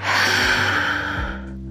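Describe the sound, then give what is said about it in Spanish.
One deep, breathy inhalation is taken during a guided breathing exercise. It is loud and steady for over a second, then trails off. “Y sin más, inhala profundamente.”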